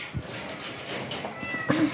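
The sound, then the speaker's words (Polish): Cats meowing at a rescue shelter where injured cats recover after accidents; a few short meows stand out against a quiet background with no talk. “To są koty powypadkowe, które tutaj w tym miejscu dochodzą do siebie po wypadkach i są w trakcie leczenia.”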